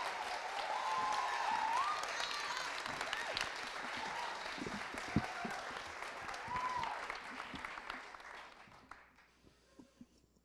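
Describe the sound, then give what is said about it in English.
Audience applause welcoming a speaker, an elementary school teacher: dense, sustained clapping holds steady for about eight seconds, then fades away, leaving a few scattered claps at the end. “Let's put our hands together and give a warm, rowdy welcome for Anna.”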